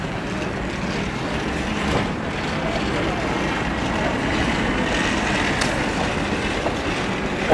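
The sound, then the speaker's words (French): Suitcase wheels roll around a train station in a continuous, dense rattling rumble that holds at an even loudness throughout, with no voices clearly picked out. “Vous entendez un son international. les valises avec des roulettes.”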